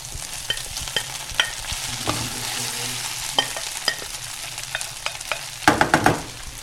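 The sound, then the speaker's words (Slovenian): Onions sizzle in a pan for an onion-mustard sauce, with a steady hiss under scattered scraping knocks of stirring and a denser clatter near the end. “Tako, zdaj dodam torej še ostalo čebulo.”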